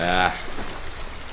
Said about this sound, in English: Running water.